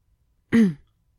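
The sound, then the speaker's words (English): A woman clears her throat in a single short, low, gravelly rasp, heard alone against silence. “cleared her throat.”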